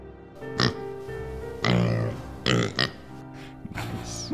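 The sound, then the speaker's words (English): A small piglet boar oinks and grunts in several short, rough bursts, a longer one in the middle, set over a steady droning tonal background. “We follow a lone kobold walking down a dirt path, small piglet boar in tow, as he walks up to the front gates of Falcon's Hollow”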